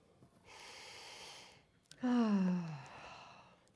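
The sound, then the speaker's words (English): A deep breath taken slowly: a soft, airy inhale, a short pause, then a louder voiced exhale like a sigh that drifts downward in pitch and fades. “just take a breath with me.”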